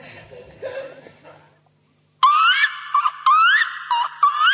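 A black-throated loon gives loud, wailing tonal cries in the second half, several drawn-out rising calls with short breaks between them, after a quiet, faint opening.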